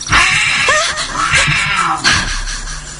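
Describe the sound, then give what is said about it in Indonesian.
A black cat meows inside a tent, giving a few loud, drawn-out, wavering yowls in quick succession with harsh, strained tones. “aku dikagetkan oleh seekor kucing hitam yang ada di dalam tenda. Yaelah, kok ada kucing segala sih?”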